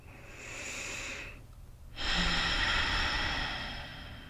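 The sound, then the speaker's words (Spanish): Deep, slow breathing heard as two long, airy breaths separated by a short pause, the second fuller and louder, with no talking. “Respira profundo.”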